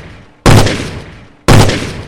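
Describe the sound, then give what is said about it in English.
Handgun shots: two loud, sharp reports about a second apart, each with an abrupt attack and a long, slowly decaying tail, with no other sounds in between. “He got off 3 shots in a flash, but I was able to get around the corner without being hit.”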